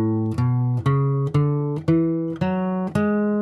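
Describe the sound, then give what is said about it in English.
A major scale starting on A, played as seven clear, separate notes that climb steadily in pitch, each with a sharp attack and a short, ringing decay. “that typical major scale, but when starting on A, you need to use three sharps.”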